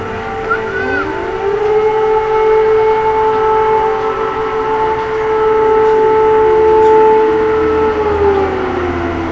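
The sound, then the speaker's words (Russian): An air raid siren wails outdoors in Kursk, Russia, in July 2024: a loud, steady tone that rises quickly at the start, holds for several seconds with rich overtones over a low rumble, then begins to fall near the end. “На улице взвыла сирена воздушной тревоги.”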